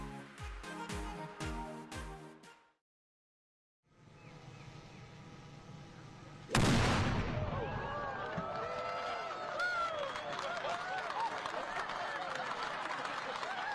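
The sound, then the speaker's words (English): A ceremonial cannon fires at the 2023 RBC Heritage golf tournament opening ceremony: one sudden, loud, sharp boom after a short silence, followed by a sustained wash of steady noise. “The opening ceremony of the 2023 RBC Heritage. That's defending champion Jordan Spieth. Whit, I'm telling you, it looks like every year people suddenly realize how loud a cannon is when it goes off.”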